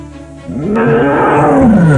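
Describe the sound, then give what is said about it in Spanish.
A tiger roars once, a long, deep, growling roar that swells in loudness and holds steady, then dips slightly in pitch near the end. “Mientras veía pacer sus vacas, llegó el tigre.”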